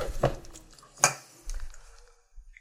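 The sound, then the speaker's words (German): Knife and utensil clatter while potatoes are cut in a kitchen: a few sharp clinks and knocks stand out over a low, quiet background, with no talk. “die Kartoffeln dann schon mal schneiden.”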